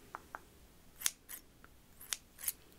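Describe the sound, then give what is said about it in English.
Scissors snip while trimming layered hair during a relaxing haircut, several crisp, quiet cuts at an irregular pace, some single and some in quick pairs, with no talking. “Let me just trim a little bit more. Okay, just a little bit.”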